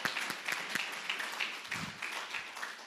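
Audience applause for two people, with dense, steady clapping and a few sharper individual claps throughout, continuing without a break.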